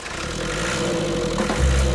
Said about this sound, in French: Il y a quelques boutons en plus, un coup de démarreur. Bingo. Toujours du premier coup.